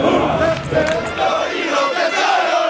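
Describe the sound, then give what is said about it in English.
Soldiers shout together during morning training at Fort Hood, Texas: many voices overlap in a loud, continuous roar that holds steady throughout. “The sound in my city every morning from Fort Hood, Texas, is the sound of soldiers training.”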